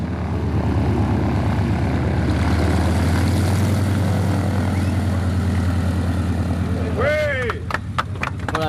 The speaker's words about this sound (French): c'est l'équipage Syntex qui euh, vient de se poser à Tarfaya 100 ans après Antoine de Saint-Exupéry